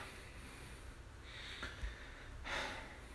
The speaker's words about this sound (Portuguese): deixa eu só pegar um momento assim para mim para respirar